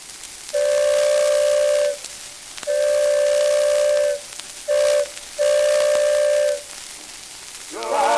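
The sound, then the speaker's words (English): A steamboat whistle blows on the Ohio River in four loud, steady, tonal blasts, the third much shorter than the others, with quiet pauses between them. “Don't you hear that whistle blow?”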